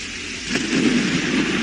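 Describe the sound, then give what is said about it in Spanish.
Steady hiss of rain in a thunderstorm with hail, during storms across Spain, with a low rumble that swells after the first half-second and stays strong to the end. “Siguen las tormentas y el granizo que anoche causaban estragos, sobre todo en La Rioja, Galicia, País Vasco, Castilla y León o Madrid.”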